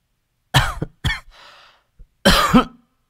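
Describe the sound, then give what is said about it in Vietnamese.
A woman coughs softly in a few short, separate bursts, with a faint breathy exhale between them and a last cough that is the longest of the set. “Cô Thắm khẽ ho.”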